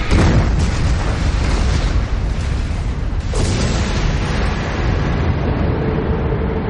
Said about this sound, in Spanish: El chorro se incendia y quema el barco griego que tiene cerca. El fuego se propaga por el chorro hasta el interior del buque y le hace explotar.